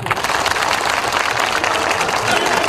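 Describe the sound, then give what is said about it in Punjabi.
An audience applauds to welcome a performer with loud, steady, dense clapping that holds at an even level throughout. “ਇੱਕ ਵਾਰ ਜ਼ੋਰਦਾਰ ਤਾੜੀਆਂ ਮਾਰ ਕੇ ਮੱਖਣ ਬਰਾੜ ਜੀ ਦਾ ਸਵਾਗਤ ਕਰੀਏ।”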